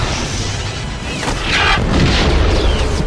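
Stormtroopers open fire in a Star Wars-style battle, with blaster shots and an explosion: a dense, loud rumble swells into heavy booms midway, with a few swooping laser zaps cutting through.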